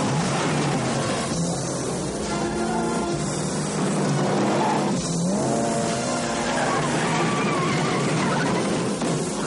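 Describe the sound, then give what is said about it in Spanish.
Cars speeding in a street chase between rows of cars under elevated tracks and over speed bumps in an action film: a continuous loud engine roar with shifting revving pitch and screeching tires. “El vehículo de Richie avanza entre dos filas de coches bajo unas vías. Gino consigue colocarse tras ellos y tras pasar por unos badenes, avanza bajo las vías en su persecución.”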